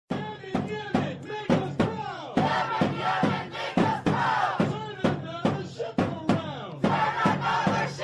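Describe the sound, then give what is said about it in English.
A crowd of Houthi rebels in Yemen chants: many voices shout together in a steady, repeated rhythm, loud and forceful, with sharp accented bursts throughout. “And there were chants yesterday. If we have chants from last night, too, Josh. Let's play those chants from last night.”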